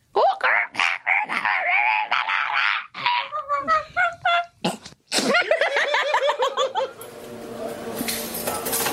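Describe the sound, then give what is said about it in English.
A person's voice imitates the call of a blue-winged kookaburra, a metallic-blue bird, with a loud, rapid string of harsh, honking, cackling bursts that run together in a raucous, uneven chatter. “These ones got blue wings and the blues, oh, it's like a metallic blue and they sound like this.”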